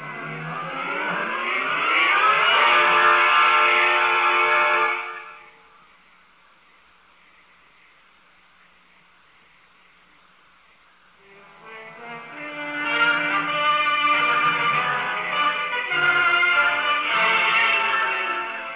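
An electric locomotive pulling a train gives a loud, strained motor drone with rising harmonics, drops away to near quiet for several seconds, then swells back to a sustained roar.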